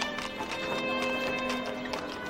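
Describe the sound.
Hooves clip-clopping from a horse pulling a carriage: a steady run of many quick hoofbeats at even volume, with a continuous tonal hum underneath.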